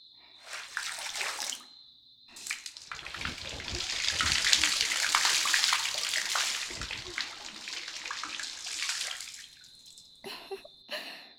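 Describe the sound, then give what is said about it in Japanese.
Water runs over hair during a rinse with plain warm water and no shampoo, a steady gushing and splashing that holds for several seconds, with a brief burst at the start and a few short splashes at the end. “お兄様はつけられていないので湯洗いだけにしますね。”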